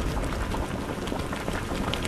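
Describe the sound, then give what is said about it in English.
Maple sap boils down over a wood fire in Geauga County, giving a dense, continuous bubbling and crackling hiss at an even, moderate level throughout. “Stoking a fire to boil down that maple sap in Geauga County.”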